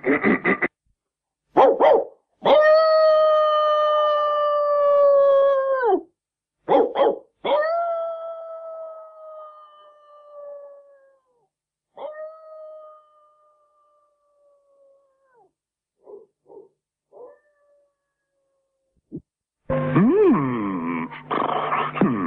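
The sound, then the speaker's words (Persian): A dog barks and howls at night to raise an alarm: short sharp barks alternate with three long, sustained howls that grow fainter, followed by a few faint yips and a loud noisy burst at the end. “خدا کنه واق واق من به گوشش برسه. تو این وقت شب هرگز نمیتونی پیداش کنی. او سعی خودمو میکنم، اگه مجبور بشم تا صبح واق واق میکنم.”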